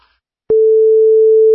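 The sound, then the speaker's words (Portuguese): A telephone ringback tone heard while calling someone: after a short silence, a single loud, steady mid-pitched tone comes in and holds unchanged for about a second. “Então vamos lá. Vamos ligar aqui pro cara.”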